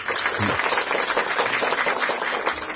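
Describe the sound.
Audience applause for a young couple invited up at a church gathering: dense, crackling clapping from many hands, sustained and even throughout.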